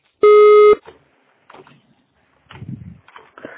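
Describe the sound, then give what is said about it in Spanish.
A voicemail recording's beep sounds once: a single steady, mid-pitched tone lasting about half a second and rising sharply from silence, followed by a few faint, brief sounds. “Por favor, deja tu mensaje después del tono.”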